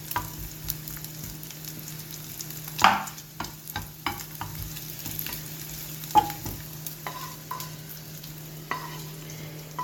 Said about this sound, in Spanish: El chorizo no hay que hacerlo mucho porque si no se quemaría. Solamente que caliente y coja un poquillo de color. El chorizo hay que dejarlo para que suelte toda la grasa, ¿no? Que suelte algo bien.